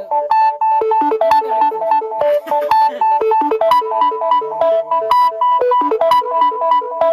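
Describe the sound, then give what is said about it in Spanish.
Melodic phone ringtone for an incoming call, a loud, bright electronic tune of quick repeating notes cycling in a steady pattern throughout, with no voices. “No puedo contestar. Son llamadas que no puedo contestar.”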